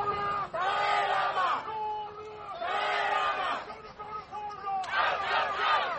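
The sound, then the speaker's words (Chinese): Crowd of protesters loudly shouting slogans outside a royal palace in London during a state visit, against Chinese human-rights policy. Massed voices surge in three strong bursts with short, slightly quieter lulls between them. “白金汉宫外面，白天和夜晚都有抗议者高声呐喊，抗议中国当局压制人权”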